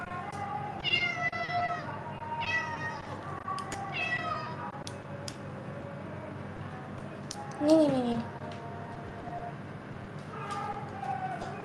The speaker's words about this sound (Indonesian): kita mainin aja nih kucing